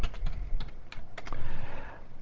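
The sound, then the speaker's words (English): Fingers type on a computer keyboard in quick, irregular keystrokes, with many crisp clicks following one another in short bursts. “I just typed in the wrong ticker.”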